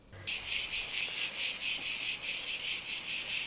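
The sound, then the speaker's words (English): Cicadas buzzing: a high, insistent insect song that switches on abruptly and pulses in many rapid, regular throbs, steady in pitch and loudness, with nothing else audible. “Cicadas are cheering you on, guys.”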